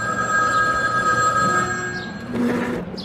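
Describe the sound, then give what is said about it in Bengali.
A telephone bell ringing in the next room, a sustained, bright, metallic ring lasting about two seconds before it stops, followed by a few softer sounds. “এমন সময় পাশের ঘরে টেলিফোনের ঘন্টি বেজে উঠল”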